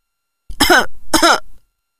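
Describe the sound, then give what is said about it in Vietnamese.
An old man clears his throat and coughs into his fist in two short, rasping bursts, one after the other, standing alone against silence. “Ông cụ húng hắng ho vào nắm tay.”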